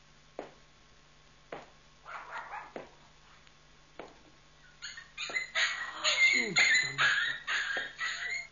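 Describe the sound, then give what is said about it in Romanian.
Puppies whimpering and yapping: a few isolated short yips early on, then a denser, louder run of high whines and yaps filling the second half. “Soția mea mi-a dăruit 2 căței? Nu se poate! 2 căței.”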